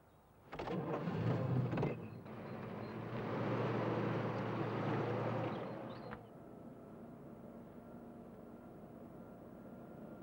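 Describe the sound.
A car engine starts with a loud burst of cranking, catches into a steady running roar, then settles into a quieter, even idle.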